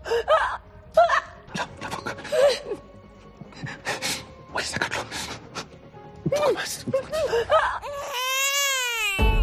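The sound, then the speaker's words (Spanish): A newborn baby cries at birth in a series of short, high wails broken by sharp gasps and whimpers, with adult voices among the cries. “Es el maravilloso momento en el que un bebé llega al mundo.”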